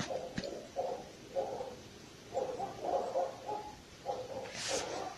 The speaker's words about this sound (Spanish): ¿Oyen los perros?